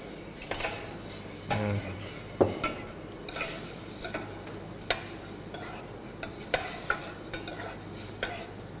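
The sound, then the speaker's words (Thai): A spatula scrapes and stirs minced pork seasoned with fish sauce in a dry pan without oil, giving a faint sizzle and irregular metallic scrapes and taps spaced a second or so apart, with no talk. “ตอนนี้เนี่ยเราก็รวนหมูไปเรื่อยๆการรวนแตกต่างกับการผัดการทอดการเจียวอย่างไรการรวนเนี่ยจะใช้ไม่ใช้น้ำมันนะฮะ”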